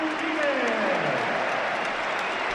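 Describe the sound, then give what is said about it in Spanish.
Stadium crowd at an Atlético Madrid football match roaring and applauding in an ovation for a long-serving player; a steady, dense wash of crowd noise with a voice carrying over it. “Mira, están súbelo por megafonía, que van a dar la ovación a Saúl.”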